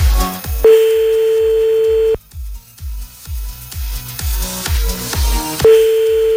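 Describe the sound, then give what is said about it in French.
Telephone line sounds as a call is placed: a steady mid-pitched tone, then a stretch of rapid clicks and short beeps, then the tone returning, all over a regular low thumping beat. “On appelle un autre, c'est parti, Jean-Philippe. On y retourne.”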